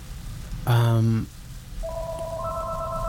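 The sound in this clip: Telephone tones on a radio station phone-in line as a call comes in: a brief, loud, buzzy tone, then a pause, then a steady electronic tone that is soon joined by a second, higher one.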